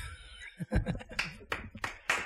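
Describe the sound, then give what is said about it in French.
A talk show studio audience claps as a segment ends, the claps quiet, separate and irregular rather than a dense ovation. “On applaudit ta chronique, elle est terminée.”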